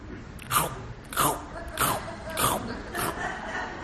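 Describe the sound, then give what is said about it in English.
Someone chomps into an apple with five crisp, crunchy bites spaced about half a second apart, each a sharp crackling burst over a faint background. “all of a sudden, off to the corner of your left ear, you hear someone chomping an apple.”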